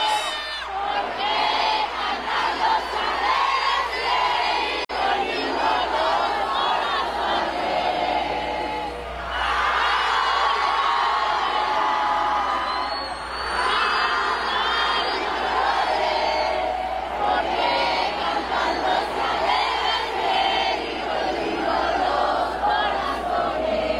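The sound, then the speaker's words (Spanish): A concert crowd bursts into an ovation and sings along as one massive chorus, a dense, loud wall of cheering voices and sung syllables that holds steady for the whole stretch. “para desatar una ovación generalizada y convertir el recinto en un coro masivo. Así se escuchó este momento.”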